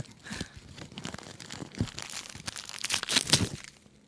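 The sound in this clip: A Christmas present sealed with a lot of tape is unwrapped with irregular crinkling of paper and tearing of tape, faint to moderate in loudness, with sharper ripping bursts toward the end.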